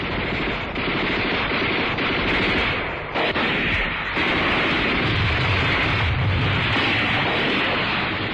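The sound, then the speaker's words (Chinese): Gunfire and an artillery barrage in battle, as troops mass heavy fire on a village: dense, loud, continuous machine-gun bursts and blasts with no letup, apart from a brief dip midway. “他们到了村边，就摆开决战的架势，集中猛烈炮火向村里射击。”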